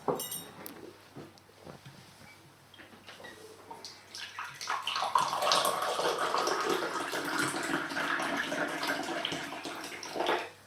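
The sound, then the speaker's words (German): Ginger tea pours from a pot into a cup. A few faint clinks come first, then a steady, gently trickling stream of liquid runs for about six seconds before stopping abruptly. “Das ist Tee, den ich aus einer Kanne gerade in Jos Tasse gegossen habe. Es ist keine Lüge. Ich mache das wirklich. Und es ist wirklich Ingwertee.”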